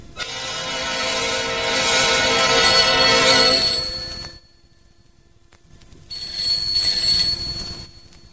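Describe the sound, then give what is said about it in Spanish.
A telephone rings loudly in two long, bright bursts of trilling bell tone separated by a short silence, with no voices over it. “A la mañana siguiente, Grimalkin Tilsbom respondía el teléfono.”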